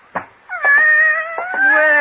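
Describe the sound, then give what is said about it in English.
A tortoiseshell cat meows twice in drawn-out, tonal cries after a brief soft sound, the second meow holding steady and clear to the end. “you didn't tell me you had a cat. Oh, didn't I? Well, I have. Just about the most beautiful tortoiseshell cat I've ever seen.”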